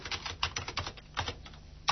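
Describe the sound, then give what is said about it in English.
Rapid typing on a computer keyboard as a word is entered, many quick, crisp keystrokes in an uneven rhythm, with one sharper key press near the end. “Let's type the word dictionary in here.”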